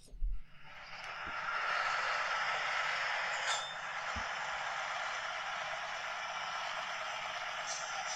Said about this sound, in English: Sounds like a V8. Kind of does. Let's hear it rev up.